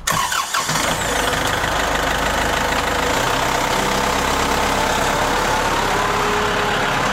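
A vehicle engine runs steadily as it drives on, a loud, continuous mid-pitched rumble mixed with broad rattling road noise, holding level throughout after a brief dip at the very start.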